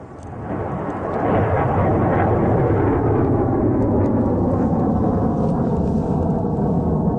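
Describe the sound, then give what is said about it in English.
Thunderous roar of a suborbital hypersonic rocket launching from a coastal spaceport in Nova Scotia, a loud, dense, rumbling blast that swells in over the first second and then holds steady for about seven seconds, with no voices. “That's the sound of this morning's rocket launch in Canso, Nova Scotia, the first of two suborbital hypersonic rockets to launch from the spaceport in the small coastal community.”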